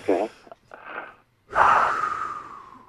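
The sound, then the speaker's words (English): A person takes a big deep breath: a few short breathy sounds, then one long, loud airy rush lasting over a second that slowly fades. “Take a big deep breath right now. Do this.”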